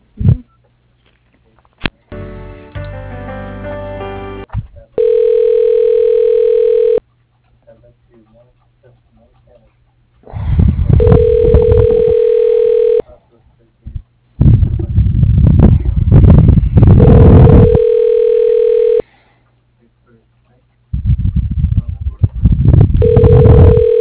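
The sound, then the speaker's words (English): Ringback tone while a phone call is being transferred: several steady, level two-second tones repeat at intervals, separated by louder bursts of voice and noise. “Okay, let me transfer you.”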